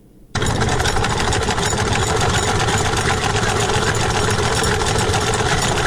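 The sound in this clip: A sewing machine with a hand-turned wheel, used by a woman tailor in Kunar, Afghanistan, starts abruptly into a loud, rapid, unbroken mechanical whirr and clatter that holds steady throughout.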